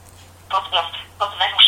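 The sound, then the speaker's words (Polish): Keypad tones as a phone number is dialed on a numeric keypad in a calling app on a computer: several short, bright beeps in an uneven sequence over a steady low hum. “Wybierz numer. Możemy wybrać numer z klawiatury numerycznej, aby było szybciej.”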